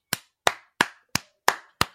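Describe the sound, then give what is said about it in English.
Six crisp hand claps given as a round of applause for an NFL team, sharp and evenly spaced at a slow, steady beat with silence between them and no voices. “a round of applause for a team that played to the complete essence of what our coach wants.”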